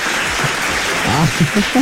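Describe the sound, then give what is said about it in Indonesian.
Applause from a group, a dense, steady patter of clapping with voices rising over it toward the end. “Tepuklah sekali lagi, tepuk.”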